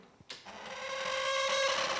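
A machine built to smoke, not oiled for a long time, starts with a click and runs with a steady whirring drone and sustained squeaking, squealing tones from its mechanism, growing slightly louder.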